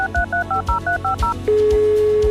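A telephone number is dialed on a touch-tone keypad: eight quick two-note beeps in an even rhythm, each short and bright, then a single steady tone that holds to the end.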